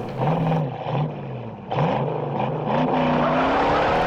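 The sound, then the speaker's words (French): Squealing tires and engine roar from the car chase in the Steve McQueen film Bullitt. A loud, continuous rumble runs throughout, with wavering high-pitched screeches rising over the deep drone. “La plus longue course-poursuite de l'histoire du cinéma.”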